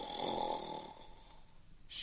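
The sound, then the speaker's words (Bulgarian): A sleeping man snoring loudly, one long rasping snore drawn out then fading into a quiet pause before the next breath begins. “Отдалече се чувало юнашкото му хъркане.”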